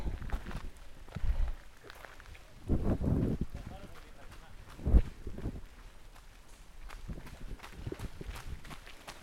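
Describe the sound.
Horses galloping wildly, bursts of heavy thudding hoofbeats that swell and fade, mixed with wind buffeting the microphone and people's voices.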